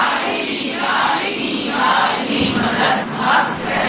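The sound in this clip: Crowd shouting in unison in response to a Haidari chant during an Urdu religious speech, voices rising and falling in several loud surges throughout.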